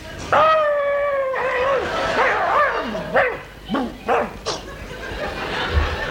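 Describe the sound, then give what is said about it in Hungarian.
A person imitates a dog, opening with a long, whining howl and following it with a few short, yelping barks that rise and fall sharply in pitch. “Érted, ugattam?”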